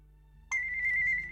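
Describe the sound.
An electronic telephone tone sounds while a call is being transferred. After a faint low hum, a steady single-pitched tone starts abruptly and carries on evenly with a slight pulsing to the end.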